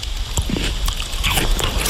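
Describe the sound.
A knife cuts into an unripe pear from the surviving Lidice pear tree, giving crisp, wet crunching snaps that break out a few times over a loud, noisy background.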